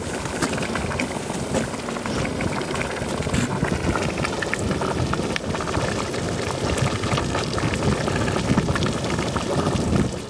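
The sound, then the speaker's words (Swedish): Water boiling in a saucepan, a dense, continuous bubbling and popping that stays at a fairly constant level for the whole stretch, with no voices over it. “Kokande vatten låter så här.”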